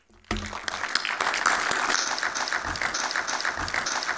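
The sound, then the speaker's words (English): An audience at the Aviation Festival Americas applauds to welcome speakers on stage, a sudden burst of dense clapping that stays steady and full to the end. “Please join me in giving them a warm welcome.”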